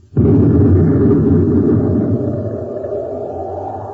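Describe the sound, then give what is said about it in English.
A sci-fi weapon shot and explosion as hidden weapons fire on people outside a spacecraft: one sudden loud, deep blast that rolls into a long rumbling decay, with no voices. “Someone's firing at us. That one came from the other direction.”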